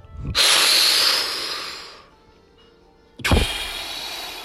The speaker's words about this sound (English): Take a deep breath.